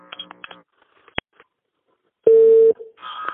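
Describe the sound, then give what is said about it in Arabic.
A telephone tone sounds while a dropped call is redialed. After a sharp click, a single steady, mid-pitched beep lasts about half a second and stands alone against quiet. “يعني أقطع اتصال وأعيده بكم”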